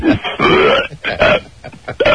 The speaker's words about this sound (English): And then he wants to belch.